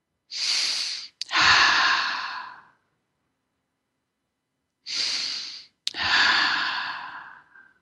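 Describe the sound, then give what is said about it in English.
Two deep breaths during a guided meditation, each a short hissing inhale followed by a longer sighing exhale, separated by a quiet pause, with no talk. “So let's share our meditation, and then I want you to call in with your questions. Ta-da! So let's take a couple of deep breaths.”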